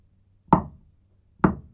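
Two knocks on a door, each a single solid thud with a quick decay, spaced about a second apart and heard alone against near silence.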